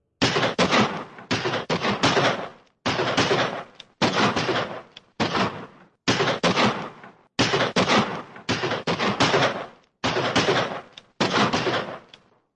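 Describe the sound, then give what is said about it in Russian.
Automatic gunfire from two guns rattles out in a rapid series of loud bursts, each under a second long and separated by brief silences, continuing steadily throughout. “Выстрелы ударили звонкой оглушительной очередью, словно шло состязание на скорость стрельбы.”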